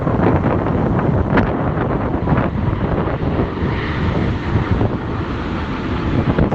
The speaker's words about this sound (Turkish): uçak geçiyor ya, Ataköy'deyim ben.